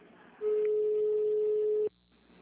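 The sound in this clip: A telephone call transfer tone during a call to a payroll-loan service center: a single steady, mid-pitched tone holds for about a second and a half over faint line hiss, then cuts off abruptly.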